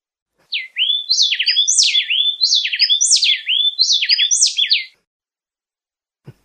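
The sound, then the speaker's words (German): Two birds sing a duet, trading rapid high whistled phrases that interlock so tightly they sound like one bird singing continuously, repeated several times before stopping with a faint click at the end. “Genau, und jetzt singen zwei Vögel. Man könnte immer meinen, das ist immer der gleiche, der halt ein bisschen schneller singt, aber das ist nicht so.”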